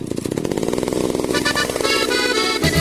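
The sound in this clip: A chainsaw engine running at high revs, a loud, steady buzzing drone with a rough rasp, held throughout without pause.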